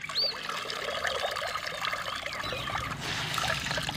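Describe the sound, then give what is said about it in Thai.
Water trickles and pours from a wet cloth as it is wrung until damp, after being washed in plain water to remove starch before dyeing. A steady, continuous splashing stream, not separate drips. “ก็บิดให้หมาดๆ”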